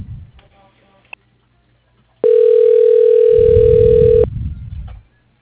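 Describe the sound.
A telephone line rings while a call is transferred to voicemail: a single steady, loud ring tone lasts about two seconds, framed by faint rustling noise before and after.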